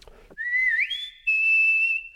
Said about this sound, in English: My father used to whistle. He would whistle. Well, he would call us by going,